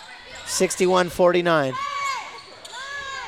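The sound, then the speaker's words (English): A few bounces of a basketball being dribbled on a court during a women's basketball game, with voices heard over the thuds. “Dribbled up, stopped, looked around, and took off again dribbling.”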